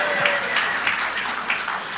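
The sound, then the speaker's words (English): Audience applause in a church setting: a steady, dense wash of clapping from many hands, moderately loud and continuous for about two seconds, with a faint voice briefly audible near the start. “Keith Wilson, round of applause, please.”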